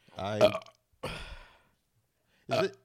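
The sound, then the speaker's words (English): A person burping loudly, three deep, throaty belches separated by silence, the middle one longer and rougher than the others. “Is this gonna be the new thing where you just burp on air?”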